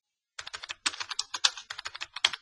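Rapid typing on a computer keyboard: many quick, crisp keystrokes in an uneven rhythm, with brief pauses between bursts and no voices.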